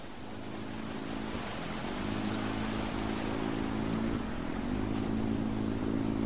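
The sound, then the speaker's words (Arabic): A boat approaches and cuts through the water. A steady low engine drone sits under a broad, rushing wash that grows a little louder partway through. “ويسمع صوت زورق قادم يشق الماء”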